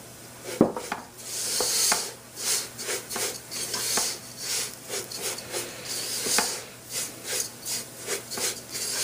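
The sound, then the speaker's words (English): A utensil scrapes around a cooking pot as coconut is stirred in with other ingredients, making many rasping, rubbing strokes in a steady back-and-forth rhythm with no talk. “So just make sure you're just stirring it while you're doing the steps of adding all these other ingredients in there. We're going to go ahead and put our coconut in there.”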